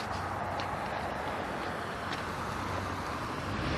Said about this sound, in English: Move it. Vehicles everywhere this morning.